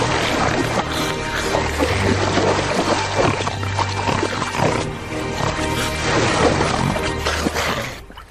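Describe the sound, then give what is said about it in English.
Continuous water splashing as children paddle in a brook on a farm, dense and unbroken, staying loud from start to end. “Splashing me, will you?”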